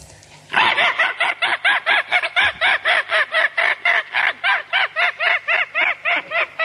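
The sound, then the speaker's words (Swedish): A man imitates the call of a peregrine falcon with his voice, producing many rapid, harsh, cackling cries repeated in a loud, steady, even rhythm. “Han kan härma 120 fågelarter. Pilgrimsfalken, hur låter den?”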